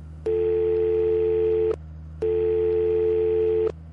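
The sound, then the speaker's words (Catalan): Ringback tone of a mobile phone calling another number after hanging up: two long, steady mid-pitched tones of about a second and a half each, separated by a short pause. “penja el mòbil i marca un altre número.”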